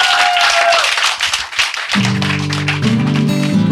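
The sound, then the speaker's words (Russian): Audience applause at a live concert: dense, crackling clapping for about two seconds that thins out, then gives way to sustained musical tones. “И еще раз аплодисменты для Наташи и Лауры Марти”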